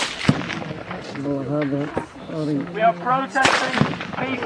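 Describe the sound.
Gunfire aimed toward unarmed international civilians carrying medical supplies at a peaceful protest: a few sharp, loud cracks break through a voice shouting over the scene.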